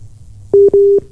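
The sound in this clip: Telephone line tones while a call to a call-in line is dialed again: two steady low beeps in quick succession, the first short and the second longer, clear and alone.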